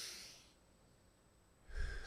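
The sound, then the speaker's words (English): A group of people takes a big deep breath together: a breathy hiss at the start, then near quiet, then a fuller rush of breath with a low rumble at the end. The whole clip is faint. “I want you to take a great big deep breath. Go.”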